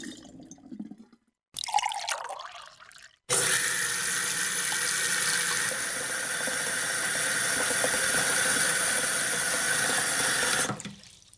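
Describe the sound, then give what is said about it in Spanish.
Water running from a tap into a sink while dishes are washed: a steady, broad rushing stream that holds for several seconds and then cuts off abruptly, preceded by a few softer handling sounds. “Yo escuché que tal vez estaba lavando los platos”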